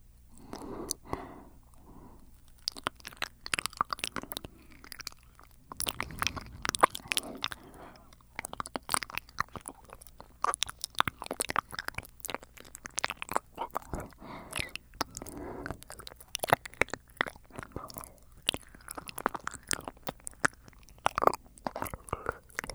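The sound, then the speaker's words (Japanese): Wet mouth sounds of licking and cleaning the ears in an ASMR setting: many soft, close clicks, smacks and slurps run continuously and quietly throughout, with an irregular rhythm. “全身お口で綺麗にさせていただきます。 お耳から綺麗にいたします。”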